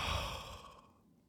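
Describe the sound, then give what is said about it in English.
A long exhale through the mouth, as a relaxing breath. It starts as a fairly loud, breathy whoosh and fades steadily to quiet within about a second. “And then exhale through the mouth.”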